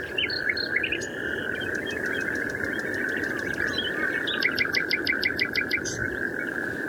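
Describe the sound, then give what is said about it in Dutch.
A nightingale sings in the Kennemerduinen dunes near Bloemendaal about an hour before sunrise, rapid bursts of high repeated notes and chirps over a steady, unbroken trilling chorus of natterjack toads. “is niet compleet als er geen nachtegalen zingen. Rob Uiter is naar een van de bolwerken van deze prachtige zanger getrokken, de Kennemerduinen bij Bloemendaal.”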